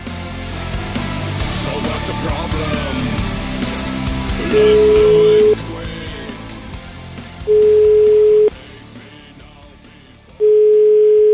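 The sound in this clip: Ringback tone of an outgoing telephone call being placed: three long, steady, even tones about a second each, evenly spaced, over a busier background that fades once the ringing starts.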